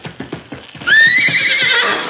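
A horse in a riding ring makes quick, regular clip-clopping hoofbeats, then lets out a loud, high whinny that lasts over a second.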